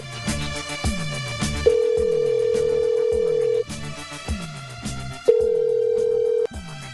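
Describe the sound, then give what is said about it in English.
Telephone ringback tone during a call-in, heard as two long, steady, mid-pitched tones separated by a gap, laid over a rhythmic backing beat of repeated low thumps. “What can we get the phone ringing? This quick.”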